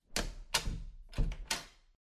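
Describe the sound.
Four sharp thumps at a door as a court letter is delivered to a woman inside, evenly spaced and fairly loud, with no voices.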